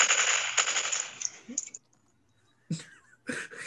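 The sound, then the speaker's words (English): A gunfire sound effect plays during a tabletop horror role-playing game session as men shoot. A long, rapid burst of loud, crackling shots fades out, and after a pause two shorter bursts follow. “Steady men, shoot!”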